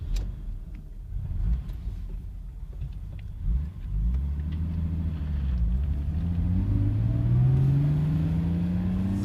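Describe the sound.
Mercedes car engine starting, then settling into a low rumbling idle that builds into a steadily rising hum as the revs climb toward the end, with no voices present.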